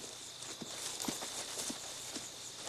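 Hoofbeats of horses ridden off over the ground, one a reddish-brown Appaloosa with gray-flecked hindquarters, come as a few faint, evenly spaced thuds beneath a steady hiss.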